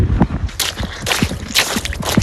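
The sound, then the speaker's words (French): Wet shoes squelch and slosh as someone walks with their feet in water. Many irregular, fairly loud squishy splashes overlap, with gurgling and dripping between the steps. “les pieds dans l'eau. J'ai mes chaussures qui font pouic-pouic.”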